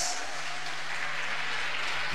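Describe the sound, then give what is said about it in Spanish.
Audience applause for performers on stage, a steady, dense wash of clapping that holds at an even level for the whole span with no voices over it. “¡Bravo! ¡Cómo aplauden! ¡Qué lindo!”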